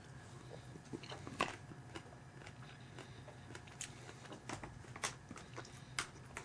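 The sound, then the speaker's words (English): Chewing cranberries: many soft, crunchy bites and wet mouth sounds in an irregular rhythm, faint and without talk, with a few sharper crunches standing out. “Let me try these cranberries again.”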